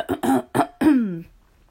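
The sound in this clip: A person coughing and clearing the throat: a few short, harsh voiced bursts, then a longer rasping one that trails downward in pitch. No talk is heard.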